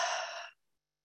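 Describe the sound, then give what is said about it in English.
A deep breath out: a single soft, breathy exhale lasting about half a second, then fading abruptly into silence. “taking a nice, mindful, deep breath in and out.”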